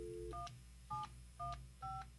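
Touch-tone dialing beeps sound as a phone number is keyed into a telephone line. The two-tone beeps are short, evenly spaced and faint over a low steady hum.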